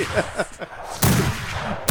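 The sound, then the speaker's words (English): Gunshot-like bursts as a pistol is fired at hay in a barn: two loud, harsh blasts, the first trailing into a long noisy roar, the second cut short at the end. “So he just starts pulling out his pistol and he starts shooting at the hay.”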